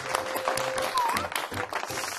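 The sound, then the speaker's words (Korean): Audience applause fills the whole clip as a dense, steady wash of clapping, with voices mixed in and a brief high cry over the crowd. “와, 이건 또 박수 나와야 됩니다.”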